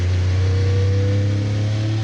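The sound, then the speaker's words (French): An 800-horsepower car engine powering out of a hairpin turn, giving a loud, steady low drone with strong harmonics that holds a nearly constant pitch throughout. “Là, faut faire super gaffe à l'accélération à la sortie du 180. Parce que c'est un virage en appui, il y a 800 chevaux à gérer.”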